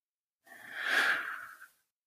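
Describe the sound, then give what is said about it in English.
A slow, deep breath during a guided meditation: a soft, airy whoosh that swells steadily and then fades, heard alone without talk. “Last deep breath in. Out.”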